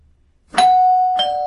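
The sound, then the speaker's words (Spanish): A doorbell rings to announce an arriving pizza delivery: two bright chime strikes, each leaving a clear, sustained ringing tone that carries to the end, with no voices. “el timbre que suena y que ya llegan las pizzas de Papayons.”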